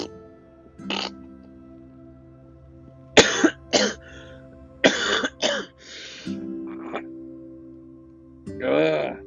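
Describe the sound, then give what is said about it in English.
Coughing from a person with an upset stomach: several harsh, irregular coughs in uneven bursts, with longer gaps between some of them. “the more I cough, the more I feel my stomach is going inside out.”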